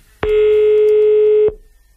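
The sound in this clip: A telephone line tone sounds as a call is placed to a listener: one steady, mid-pitched buzzing tone with a rich harmonic edge, lasting a little over a second alone before cutting off cleanly into near silence.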